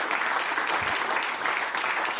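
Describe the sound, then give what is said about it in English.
Applause from a church audience giving the Lord a round of applause during a service: dense, steady clapping from many hands, moderately loud and unbroken for the whole stretch. “Shall we give the Lord a round of applause?”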